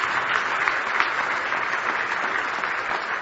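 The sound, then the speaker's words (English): A church audience claps hands in praise during a morning service, with dense applause holding steady and loud throughout, without breaks. “Give him a hand clap of praise.”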